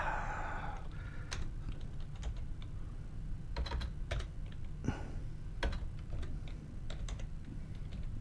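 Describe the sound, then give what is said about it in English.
Quiet typing on a computer keyboard, with many irregular key clicks in uneven bursts and short pauses, over a faint steady background hum. “And I forgot, I got to type in the thing real quick.”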